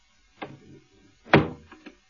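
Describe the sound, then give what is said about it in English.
Door being closed, a soft knock followed by a firmer wooden thud and a couple of faint clicks as it settles. “Hold on, let me close the door.”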